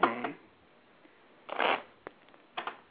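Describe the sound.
Playing cards are shuffled for a tarot reading, heard over a telephone line. There are a few short, papery riffling bursts with pauses between them, fairly faint and with no talk over them.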